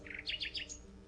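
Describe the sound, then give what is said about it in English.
A nightingale sings in distant woods on a midsummer evening: a few quick, high chirps and short trills, faint over a low steady hum, lasting about a second. “I heard a nightingale singing in the woods far away.”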